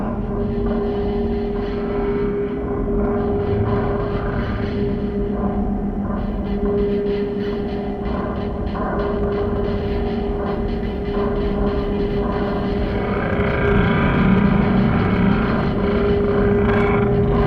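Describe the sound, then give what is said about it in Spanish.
Airplane taking off, heard as a loud, steady engine roar with a constant droning hum running through it. The roar swells slightly toward the end. “No sé si lo han notado, pero acabamos de despegar.”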